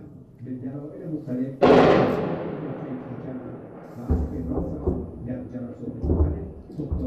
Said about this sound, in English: The airstrikes continue. It's strange how I got so used to them.